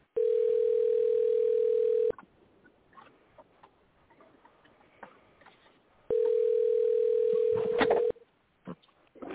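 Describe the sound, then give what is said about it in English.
A telephone tone sounds while calling a corporate office: two steady, unbroken bursts of about two seconds each, separated by a few seconds of near-silence with faint background noise. “Let's call the corporate office, see if I can get somebody's attention.”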